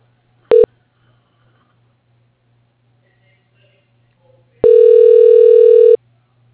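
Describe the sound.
Telephone tones as a call is transferred to voicemail: one short electronic beep, a pause, then a longer steady tone of the same pitch.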